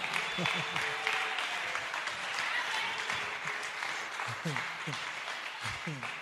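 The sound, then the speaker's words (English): Congregation clapping during a church service: dense, continuous applause for the whole stretch, with voices rising over it. “Clap for this sweet life.”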